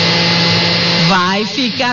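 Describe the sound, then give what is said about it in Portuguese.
A blender whirs as it blends ingredients into a green mixture, giving a steady, high-pitched buzzing hum throughout. A person talks over it in the second half. “Bater todos os ingredientes no liquidificador.”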